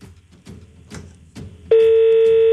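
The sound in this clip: A phone call ringing out on the line. A few soft, rhythmic thumps come first, then a steady mid-pitched tone starts abruptly and holds to the end.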